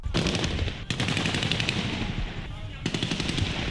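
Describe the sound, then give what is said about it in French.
Mutinous soldiers fire automatic weapons into the air in Ouagadougou to disperse protesters, sending out three rapid, crackling bursts of gunfire separated by short gaps. The gunfire is fairly faint, with background voices. “Les mutins ont tiré en l'air pour disperser des manifestants qui protestaient contre leur coup de force, a constaté notre correspondant à Ouagadougou, Zoumana Ronogo.”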